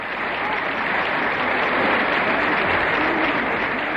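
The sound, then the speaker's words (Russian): Warm applause from the audience and actors greets a playwright at the close of a theatre evening, a loud, dense and unbroken roar of clapping that holds steady throughout, with no voices. “Разрешите к тем горячим аплодисментам, которые раздаются сейчас и в зрительном зале, и на сцене, присоедините наши самые добрые пожелания.”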